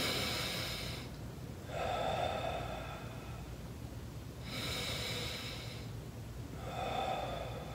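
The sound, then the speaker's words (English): Faint, airy deep breaths drawn in while lying on one side to test chest expansion: a few long, slow breathing cycles with no talk. “So I take a deep breath in.”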